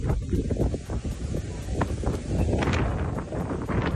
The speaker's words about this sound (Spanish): El primero, el del fuego, el viento y el miedo que provoca.